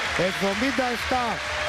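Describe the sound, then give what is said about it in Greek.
A basketball crowd gives warm applause to Panathinaikos after a 77-59 final, a steady roar of clapping and crowd noise running under a commentator's voice. “Πολύ θερμό χειροκρότημα για τον Παναθηναϊκό”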